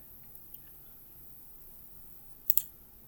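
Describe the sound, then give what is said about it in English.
A button clicked on recording equipment: near-silence with one faint tick, then two sharp, quick clicks close together near the end. “So we'll just click that button right there and we'll be good to go.”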